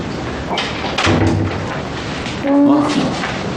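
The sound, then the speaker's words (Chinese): A door is shut with a dull thud early on, followed by a couple of short voices. “赶紧，快点把门关上。”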